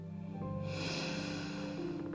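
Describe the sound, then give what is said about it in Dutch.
A deep inhale during a guided breathing exercise, a soft airy rush of breath drawn in over a calm, sustained musical drone. “naar je hoofd toe. En adem uit, weer rustig richting je tenen. Dus adem in omhoog.”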